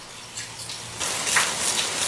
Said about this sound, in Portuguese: Agora no momento está tendo uma pancada de chuva, mas agora há pouco estava tendo granizo localizado.